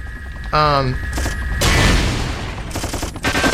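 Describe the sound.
Machine-gun fire in a video game rattles out as a long, loud, continuous burst, with a short tonal electronic sound just before it.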